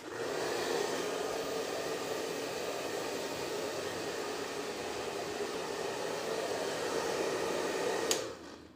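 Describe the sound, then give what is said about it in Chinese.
A hair dryer blows towel-dried hair, giving a steady, even whooshing roar that runs unbroken for about eight seconds, then a brief click as it tapers off. “头发用毛巾擦一擦，再吹干，这样才能舒服点啊。”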